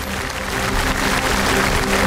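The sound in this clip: Steady applause greets guest artists as they are welcomed onto the stage at a Chinese opera event, the dense clapping swelling slightly and holding level throughout.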